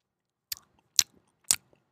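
Three crisp, crunchy chewing bites, evenly spaced about half a second apart, each short and sharp against near silence.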